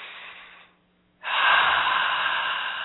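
A deep breath during a relaxation exercise: a soft, airy breath fades out and a brief silence follows. A long, loud, rushing breath then fills the rest of the moment.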